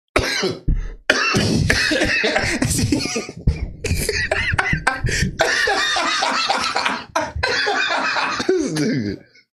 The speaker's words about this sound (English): the timing on that cough couldn't have been worse.